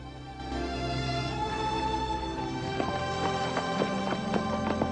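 Horse hooves clip-clopping as a rider sets off on horseback. A run of sharp hoof beats starts about midway and continues over a steady, sustained tonal background.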